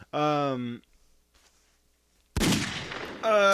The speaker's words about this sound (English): Shots fired.